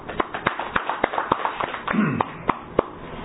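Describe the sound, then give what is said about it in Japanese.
Scattered hand claps at a church gathering celebrating a 68th birthday. Sharp, irregular claps spread over about three seconds. “皆さん盛大な拍手でお祝いをした”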